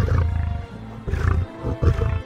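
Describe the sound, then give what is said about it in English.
Deep, throaty roaring from an 800-pound male lion with a big bushy mane, pacing in a large cage. Three loud, low grunting bursts come in a steady rhythm, each separated by a short pause. “It's a male lion with a big bushy mane. It's 800 pounds, and it's pacing back and forth.”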